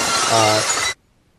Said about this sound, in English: the couple said that they couldn't remove the cap from the bottle, so they ended up shattering the glass, and Stone Cold came in